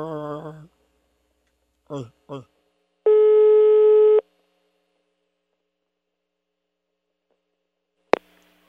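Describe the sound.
A telephone line tone sounds as a call is placed: one steady, buzzy tone lasting about a second. Brief speech comes just before it, and a sharp click follows after a silence.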